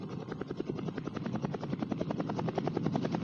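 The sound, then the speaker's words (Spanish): A helicopter in flight near Cerro Autana on its way back to Puerto Ayacucho. The rotor gives a rapid, steady chop over a continuous engine roar, fairly faint and with no voices. “con objeto de que el helicóptero vuelva a Puerto Ayacucho, ya que su autonomía no le permite hacer más viajes.”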